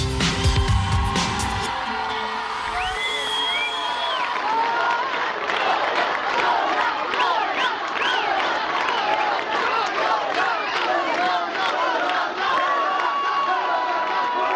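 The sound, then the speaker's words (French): A crowd cheers and shouts for a sports teacher retiring after a 38-year career. Loud whoops and cries rise and overlap, sustained throughout with only small dips. “Et non, ce n'est pas une star acclamée sur le tapis rouge de Cannes, ce n'est pas non plus une équipe de foot accueillie par ses supporters à la sortie d'un stade, mais c'est un professeur de sport qui prend sa retraite après 38 ans de carrière,”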